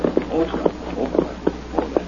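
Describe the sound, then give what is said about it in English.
Horse hooves clip-clop as a drama sound effect, with a few sharp, regularly spaced hoofbeats on a dull, narrow-band recording. The hoofbeats are moderately faint. “He stopped his horse.”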